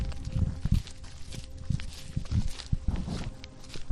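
Footsteps crunching and scuffing along a rocky country path strewn with fallen stones through fire-blackened fields, an uneven series of steps with no talk.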